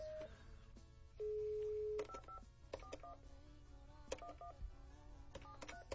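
Touch-tone dialing as a phone number is entered to call someone's father: many short beeps of varying pitch in an uneven sequence, plus one longer steady tone early on, all fairly faint.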